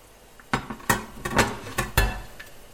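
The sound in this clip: Plates clink and knock as they are brought out to serve pici pasta with white ragù and parsley. Several sharp clattering hits fall at irregular intervals, fairly faint, with no talk.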